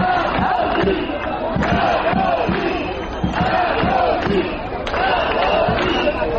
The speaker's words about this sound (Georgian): გამოდით, ამ შეძახილებით ისინი მოქალაქეებს აქციაზე მისვლისაკენ მოუწოდებენ.